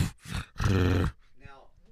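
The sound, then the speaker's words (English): A person growling in imitation of a dog, giving a few rough, low guttural growls. The longest, loudest growl falls in the middle, and softer voiced grunting sounds follow. “Just growled like a dog.”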